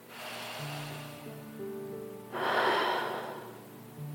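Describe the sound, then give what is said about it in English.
A deep breath during a guided breathing exercise: a long, airy rush swells and then fades away. Soft, sustained background music tones play beneath it. “Let's take those three deep breaths.”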